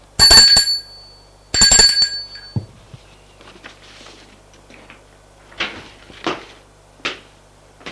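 A bell rings at a hotel reception desk: two bright, brief rings, then a few soft knocks and clunks.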